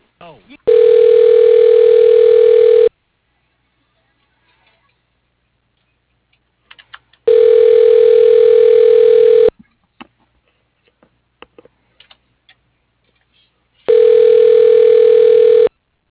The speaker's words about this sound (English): please hold while your call is being transferred to Scott Vincent